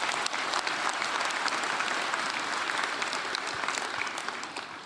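An audience applauds at the first conference of the All-Russian People's Front in Rostov-on-Don: dense, sustained clapping that fills the whole stretch at an even level and thins slightly at the very end.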